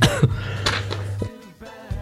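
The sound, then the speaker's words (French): A person coughs several times in quick succession, each a harsh, throaty burst, with no talk alongside. “excusez-moi, je tousse.”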